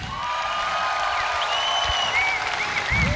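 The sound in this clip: Concert applause greets a guitarist as he is introduced to the crowd, a full, steady roar of clapping that continues throughout with no voices.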